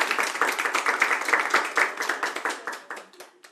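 Women in a tavern audience applaud with brisk, rhythmic clapping that stays lively, then thins and fades out toward the end.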